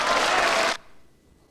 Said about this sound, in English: The peers in the House of Lords cheer Lord Graves.